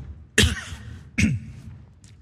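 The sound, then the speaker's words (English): Two sharp coughs come from a man who has choked on his own saliva while preaching a sermon. Each cough bursts out abruptly and trails off in a rough, throaty rasp. “I got so excited, I choked on my own saliva.”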